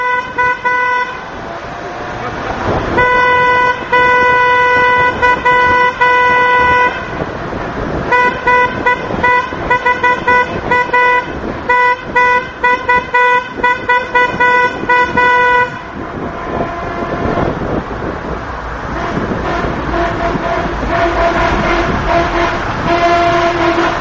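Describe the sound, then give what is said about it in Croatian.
Car horns honking in the streets of Sarajevo after a football match: a loud, dense chorus of sustained blasts and short toots, with brief pauses, over constant traffic noise. “To su dakle trube, ovo je nakon utakmice bilo.”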